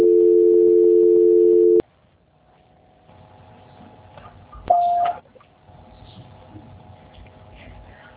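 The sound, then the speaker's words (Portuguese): Telephone tones during a call transfer: a loud steady tone for nearly two seconds, then a quiet stretch of low line noise broken by one short, brighter beep. “Só um momentinho que acho que não desliga a ligação. Transferência.”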